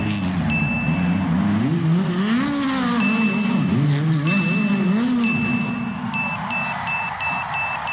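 A race car doing donuts, its engine revving hard and continuously with a wavering, rising and falling pitch, loud throughout.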